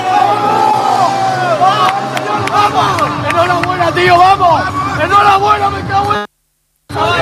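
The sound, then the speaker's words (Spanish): The Pozo team celebrates a win in a huddle. Many voices shout and cheer over each other, loud and continuous, until the sound cuts out near the end. “Piña, el sonido de la piña del equipo del Pozo celebrando ese”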